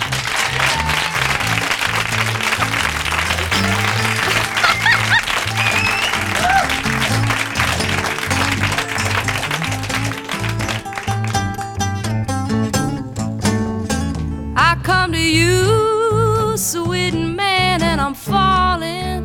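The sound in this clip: An audience in Philadelphia applauds to welcome a singer on stage, a dense, steady wash of clapping that gives way to a band starting up and a voice singing.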